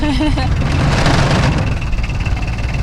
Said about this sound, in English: she took me on a tour of the 1,000-acre Conant farm in a bobcat vehicle. A little puttery, isn't it?